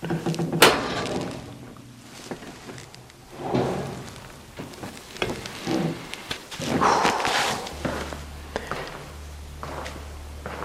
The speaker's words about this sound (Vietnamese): Bước lên lầu.